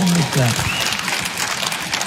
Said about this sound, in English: Yeah, you can clap for the lady.